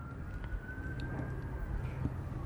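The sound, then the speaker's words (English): Sirens wail faintly beneath a dense, low rumble of background noise, a thin steady tone that bends slightly up and then down. “I don't know what you're going to do with all the sirens in the background.”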